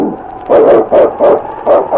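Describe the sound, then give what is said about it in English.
A lead sled dog barks in a quick, steady run of loud, rough barks, the swiftest and strongest of the snowy Northwest trail. “It's Yukon King, swiftest and strongest lead dog of the Northwest”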